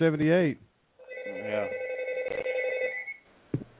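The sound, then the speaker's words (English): A house landline telephone rings with one sustained electronic ring lasting about two seconds, followed by a short click, just after a brief burst of talk. “Now the house phone's ringing.”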